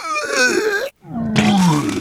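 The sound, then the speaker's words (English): A person retches and vomits, producing two loud, strained, groaning heaves with gliding vocal pitch, split by a brief silent gap. “Oh, jeez. I'm sorry. I can't stand to watch people vomit.”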